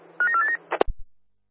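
A telephone is dialled, with a short run of electronic keypad tones followed by a few sharp clicks and low thumps, then silence.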